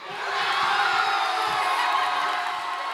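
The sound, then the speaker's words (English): Crowd cheering at a packed Cape Verdean social club during a World Cup viewing party as the team scores its first World Cup goal: sustained jubilant roar with whoops and shouts, rising in and holding steady throughout. “That was the sound of jubilation at the packed Cape Verdean Social Club in the Hollow section of Bridgeport as the country scored its first ever World Cup goal.”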